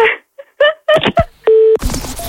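A telephone tone sounds as an outgoing call is dialled: one steady, mid-pitched beep lasting about a quarter second. Short, choppy bursts of other sound come before and after it.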